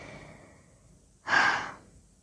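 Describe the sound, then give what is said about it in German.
A single heavy exhaled breath fills a pause in speech, a breathy rush that swells suddenly and fades over about half a second after a quiet stretch, with no talking heard. “Deshalb sind immer wieder diese Aussetzer, wo ich dann nichts sage und einfach nur atme”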